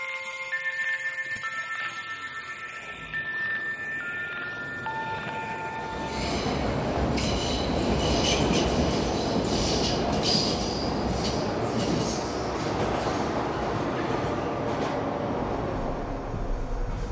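A subway train travelling, with a steady low rumble and rattling of the cars that grows fuller after several seconds of thin, high ringing tones, and no talk.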